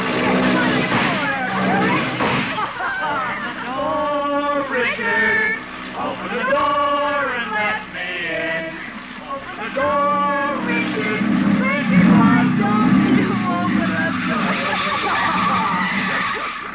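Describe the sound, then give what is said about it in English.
Hopped-up jalopy hot rod driving with passengers aboard: a steady, loud car roar with a few squealing tire skids, and passengers' voices rising over it. “She is sitting in the front seat of a hopped-up jalopy, or hot rod, with a young man named Jerry Walsh”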